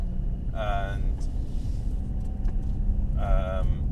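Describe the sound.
A car drives along a rough, noisy track, giving a steady loud low rumble throughout, with two brief vocal sounds over it.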